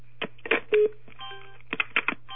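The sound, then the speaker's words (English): Telephone line tones sound as a phone is hung up at the end of a council meeting conference call: a few short, faint keypad-like beeps in uneven bursts over a steady low hum. “I'm going to put the phone down.”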